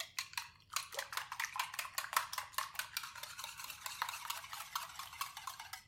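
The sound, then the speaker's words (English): Whisking vanilla, eggs and 2% milk together in a bowl for gluten-free crepe batter: quick, steady, rhythmic strokes with bright clinking of the whisk against the bowl, continuous throughout with no talking. “And we're going to whisk the wet together here, the vanilla, the eggs, and the milk.”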